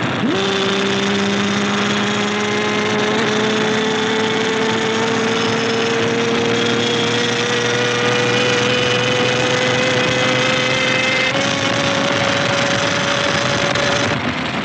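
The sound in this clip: Car engines hum steadily through a night driving scene in a film, a continuous, fairly loud drone whose tone climbs slowly and evenly, with no talk over it.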